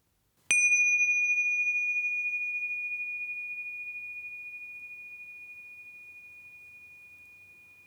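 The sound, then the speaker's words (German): A small bell struck once to open a meditation exercise rings out with a single clear, high tone that decays slowly over several seconds, heard alone with no voices. “Und wenn du gleich das Glöckchen hörst, beginnen wir mit der Übung.”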